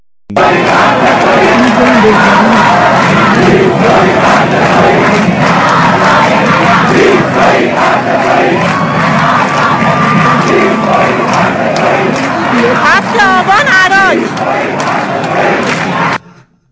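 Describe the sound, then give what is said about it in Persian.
Large protest crowd shouting and chanting in the street after security forces fired tear gas. The roar is dense and loud and holds steady for the whole clip, with no break. “یعنی جمعیت بزرگتر شد تا جایی که دیگه اون نیروهایی که اومدن گاز اشکاور زدن فرار کردن و ببینیم که جمعیت به کجا رسید.”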